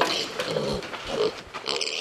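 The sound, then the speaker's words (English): Four-week-old piglets grunt in a barn full of pens, making a dense, continuous jumble of many overlapping grunts and noisy calls. “has pens of four-week-old piglets in this barn.”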